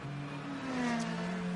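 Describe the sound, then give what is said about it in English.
Ferrari race car accelerating away from a pit stop, a faint, continuous buzzing engine note with steady tones throughout and no voices. “now waiting, off and away Albert Costa goes in the Conquest Racing Ferrari”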